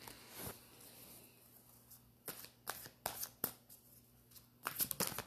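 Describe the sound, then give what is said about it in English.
Tarot cards being shuffled from a deck and a card pulled, heard as quiet papery riffles with a few sharp slaps, then a dense flurry of riffling at the end, over a faint low hum. “I'm going to go ahead and grab this deck here and pull a card for the collective at this time.”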